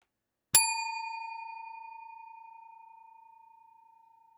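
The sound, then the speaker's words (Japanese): A single bell strike, with a bright metallic attack settling into a clear, pure ringing tone that fades slowly over several seconds in otherwise silent surroundings. “ベルの音とともに年齢が下がっていく。”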